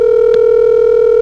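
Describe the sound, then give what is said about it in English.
A steady telephone exchange ringing tone from an electronic switching office, played while a caller waits for an intercept operator to answer. It is one continuous, even electronic tone that holds without a break, with no talk. “This is the sound of the ESS office pacifying the customer by putting on a ringtone until the intercept concentrator answers.”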